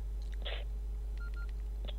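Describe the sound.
Faint mobile phone keypad tones while a test text message is typed: a few short, thin electronic beeps at irregular intervals over a steady low hum.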